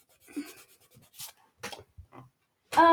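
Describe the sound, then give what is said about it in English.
An erasing pen rubs and scratches across paper in a few short, dry strokes separated by pauses, ending in a louder, harsher burst of rubbing. “I'm going to grab a pen. Here we go. On the 12th of December. I'm going to erase that.”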